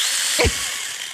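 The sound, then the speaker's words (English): A little chainsaw gives a loud, steady, buzzing whine, with a brief low thump near the middle of the short burst. “No, this is the chainsaw. Oh, the chainsaw. It is the little chainsaw.”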